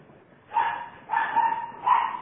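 A dog barks three times, each bark a short mid-pitched yelp with a whining edge, evenly spaced and clear against otherwise quiet surroundings.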